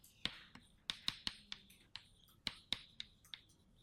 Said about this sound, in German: Also ich schreibe jetzt mal hier hin ein Elektronionen.